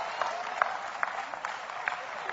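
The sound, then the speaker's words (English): A church audience claps, faint and steady at low volume, with a few sharper, louder claps standing out above the soft spread of hands. “Oh, come on. Clap anyhow. Praise God.”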